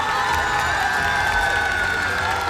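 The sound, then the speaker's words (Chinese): Applause and cheering from a concert audience welcoming the host at the first Guofeng (Chinese traditional-style) music concert: dense, steady clapping with scattered whoops that holds at an even level throughout. “首先让我们掌声欢迎国风音乐社的巡风主理人王佩宇老师。”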